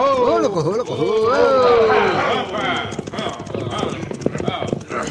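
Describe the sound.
Horses carrying a sheriff and several riders approach, with a long wavering whinny first, then a busy run of quick hoof clip-clops that fills the rest of the moment.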